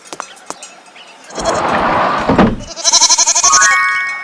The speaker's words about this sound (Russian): Коза.